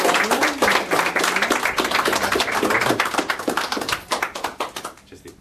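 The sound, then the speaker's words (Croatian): Applause from an audience at a school award ceremony as a prize winner receives a first prize: dense, steady clapping from many hands, dying away over the final second. “molim vas jedan veliki pljesak”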